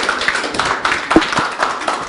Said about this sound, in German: Vielen, vielen Dank. Gebt ihm bitte einen Applaus.